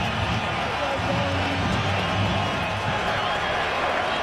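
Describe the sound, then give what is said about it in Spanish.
A baseball stadium crowd on its feet in the top of the fifth inning, Cleveland leading 3-2, roars steadily during a two-strike count, with an announcer talking over the broad, even noise. “El público que se pone de pie empieza a pedir el ponche.”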